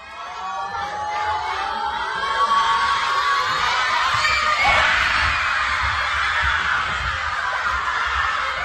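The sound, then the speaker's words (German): Schoolchildren cheer and shout at the kickoff of Austria's first World Cup match in 28 years, played against Jordan and watched at school before lessons. The crowd noise is loud and continuous, with a thin high tone running through the middle. “Und die Kids konnten freiwillig quasi früher in die Schule kommen und da das Spiel gucken. Und nach dem Spiel, da startete dann der offizielle Unterricht. Und beim Anpfiff des ersten WM-Spiels für Österreich seit 28 Jahren klang das dann so.”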